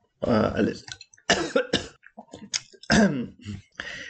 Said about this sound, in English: I just had a little coughing fit there.